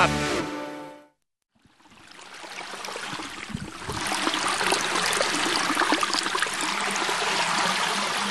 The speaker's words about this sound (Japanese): さあ、皆さん聞こえますでしょうか。田んぼの脇を流れる用水路